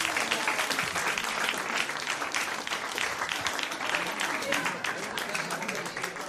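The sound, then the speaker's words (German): Audience applause at a stage show: dense, steady clapping that holds at an even level for several seconds, with a voice talking over it. “Mach mal Applaus, mach mal Applaus.”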